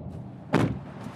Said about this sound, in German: Um uns ein bisschen aufzuwärmen, steigen wir in mein Auto und fahren zur Raststätte auf der anderen Autobahnseite.